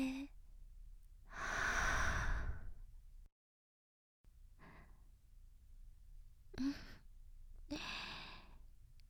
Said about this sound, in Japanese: 吸って吐いて、